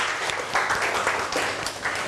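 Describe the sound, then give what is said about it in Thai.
A classroom applauds a classmate: brief, dense clapping that rises quickly and holds steadily loud for a couple of seconds. “ก่อนอื่นปรบมือเพื่อนก่อนเร็วๆ”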